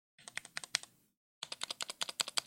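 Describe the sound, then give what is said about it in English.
Typing on a 60% gaming keyboard: a quick run of about six crisp key clacks, a short pause, then a longer, steadier run of keystrokes. The typing is faint and sharp, with no talking. “You hear that sound, right? Like the keyboards that we use, the 60% gaming and editing keyboards, for those that know how to use it.”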